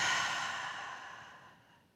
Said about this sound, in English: I want you to take a deep breath in, inhale, hold it for 3, 2, exhale.